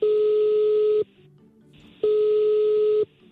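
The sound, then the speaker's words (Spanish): A telephone call is being placed, and the ringback tone is heard alone: two steady, clear tones of about one second each, separated by a one-second gap. “Le vamos a marcar”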